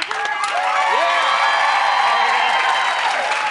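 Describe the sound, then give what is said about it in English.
An audience claps and cheers to vote in a biggest-bicep contest, with dense continuous applause, whoops and excited shouting voices, loud and sustained throughout. “Clap if you think he has the biggest bicep.”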